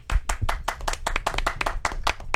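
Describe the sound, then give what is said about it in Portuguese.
A brisk round of hand clapping: many sharp, uneven claps in quick succession, fairly loud and steady throughout, with no voices. “Ô, parabéns. Não. Uma salva de palmas.”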